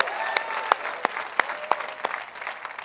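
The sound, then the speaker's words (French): A crowd at a church worship gathering applauds and cheers loudly with dense, continuous clapping, steady rhythmic accents and scattered whoops throughout. “Est-ce qu'on peut sonner comme le ciel pendant 5 secondes puis faire du bruit pour Jésus dans la place?”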